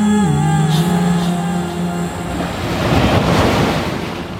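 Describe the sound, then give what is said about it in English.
Ocean surf rolls onto a surf beach at White Plains, a steady, loud wash of breaking waves with wind buffeting, swelling toward a fuller crash in the second half. “John's favorite beach was this one, White Plains.”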